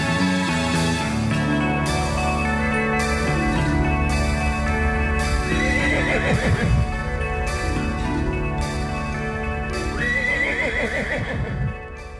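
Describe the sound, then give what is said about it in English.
A horse neighs as Pegasus the flying horse in a song, with two bright, wavering whinnies rising over a steady, loud musical backing. “I'm Pegasus the flying horse. Pegasus the flying horse. I'm Pegasus the flying horse.”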